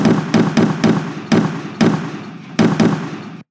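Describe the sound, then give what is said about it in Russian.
A rapid series of grenade explosions across the width of a road in battle: many sharp, loud blasts in quick succession, each with a booming burst and a short decaying rumble. “Одна за другой во тьму улетали гранаты, и по всей ширине дороги пошла серия взрывов.”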